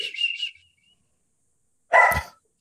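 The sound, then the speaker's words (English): A hungry dog whining: a thin, high-pitched whine in three short pulses, then after a silent pause a single louder, harsher yelp. “Sorry about the dog. That's all right. Sounds like he's hungry.”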